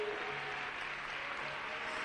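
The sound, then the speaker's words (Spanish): Faint, steady applause comes from a church audience clapping for the King during a service, a soft continuous patter lasting about two seconds. “Dele palmas al Rey.”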